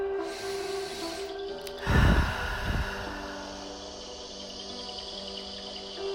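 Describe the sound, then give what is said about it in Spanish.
A single deep inhale during a guided meditation, a short rushing breath about two seconds in. It sits over a steady bed of cricket-like chirping and sustained soft tones. “Me hago presente con esta nueva vibración. Respiro profundamente.”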